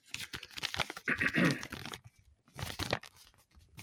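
Paper crinkles and tears as an envelope is handled, in several bursts of rustling with a short quiet gap between them.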